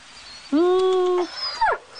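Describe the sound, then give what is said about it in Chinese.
A small dog at the Mogao Caves gives a thin, high whine held as one steady note for under a second. A brief, falling yelp follows, both heard alone over faint background hiss. “哎呀，露露好乖哟、 这小狗叫什么？ 叫露露啊。”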